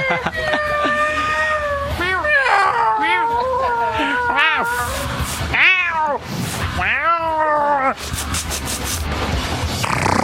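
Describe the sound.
Kittens meowing over and over, many high, arched mews rising and falling in pitch, some short and some drawn out, loud and overlapping at times.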